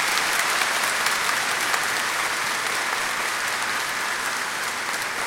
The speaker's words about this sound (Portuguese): Palma mais bonita e mais forte ainda que a mãe merece.